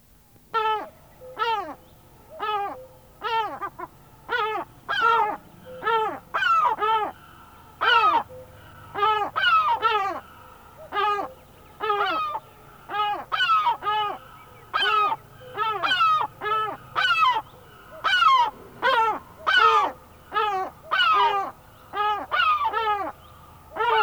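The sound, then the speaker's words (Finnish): Herring gull calls: a long run of loud, harsh, repeated cries in a steady rhythm, many in quick succession with brief gaps between groups. “harmaa lokki.”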